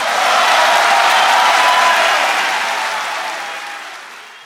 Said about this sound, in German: Ja, da hört man im Hintergrund die Standing Ovations, denn die Fans vom FC Bayern, die sind ihm treu.